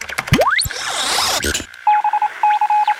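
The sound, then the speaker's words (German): Telephone tones as a call is placed from a studio phone: a fast rising sweep and a burst of static, then two groups of rapid, evenly pulsed mid-pitched beeps. “kannst du mal den X-Funker hier bemühen im Studio und damit Sternchen anrufen?”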